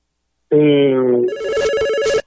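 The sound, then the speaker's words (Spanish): A telephone ringtone sounds for an incoming call: a loud, sustained electronic tone that changes character partway through, then stops abruptly, with no talk over it. “tenemos una llamada”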